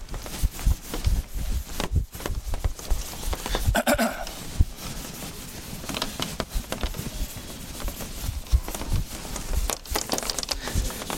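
Writing is being erased from a board: a continuous scratchy rubbing with uneven bursts of strokes that runs for about eleven seconds without voices.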